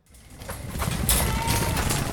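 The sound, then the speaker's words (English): Dozens of goats on an East African refugee goat farm rush to their food, stomping over muddy ground by the barn, a dense, rumbling trample that swells over the first second and stays busy. “That's the sound of dozens of goats at the East African refugee goat farm rushing to their food.”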